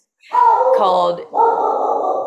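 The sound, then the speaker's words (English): Dogs barking in a home, a loud, continuous stretch of yapping that breaks off briefly and then resumes for a second long stretch. “There go the dogs.”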